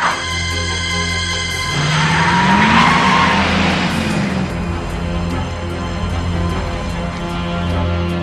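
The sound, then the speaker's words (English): A car reverses slightly, then drives off down a side road. Its engine drones steadily throughout, with a whining note that rises and falls in the middle. “The car reverses slightly and moves off down the side road.”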